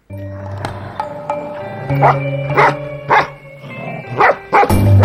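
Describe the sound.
A collie barks in several sharp, spaced barks, mostly in the second half, over a steady tonal hum that runs throughout.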